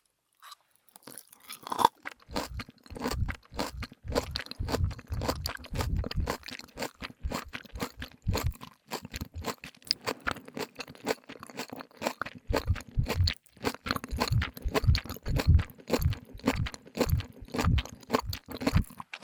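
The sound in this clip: Crisp, wet crunching as finely shredded kohaku namasu is chewed, many rapid, rhythmic bites, close and distinct, continuing steadily with only a short pause before the chewing resumes.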